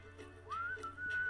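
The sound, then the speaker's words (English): A faint, thin attempt at whistling: a wavering tone slides upward, breaks off briefly, then resumes as a weak, steady note. “Can't whistle, I'm sorry.”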